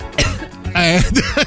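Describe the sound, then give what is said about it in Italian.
Coughing and throat clearing come from a studio control room: a few loud, rough, voiced coughs in quick succession. “delle frasi, dei colpi di tosse dalla regia.”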